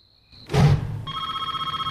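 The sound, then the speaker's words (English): A cordless telephone rings at night in a suburban house, a rapid warbling electronic tone that begins after a brief dull thump and continues steadily and fairly loudly. “She picks up the cordless phone.”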